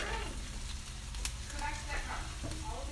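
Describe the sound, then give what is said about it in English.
An egg sizzles as it fries in a hot pan, a soft, continuous crackle and hiss with a quiet voice speaking over it. “going to be cracking the egg in 3, 2, 1.”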